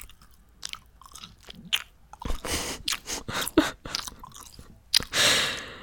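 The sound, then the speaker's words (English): Someone chews a fresh piece of gum with many faint, wet smacks and squishy crunches in an irregular rhythm, plus a louder, breathy burst near the end. “And now I'm having a second piece of gum.”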